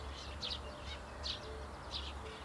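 Sparrows call faintly: a few short, high chirps repeat at irregular intervals over a low, steady background hum.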